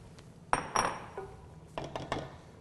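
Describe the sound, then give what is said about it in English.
Clinks and knocks of a utensil against a pot as cooked cannellini beans go into a smoky tomato soup: a few sharp metallic taps with softer rattles between them. “So the next step is to add our cooked cannellini beans.”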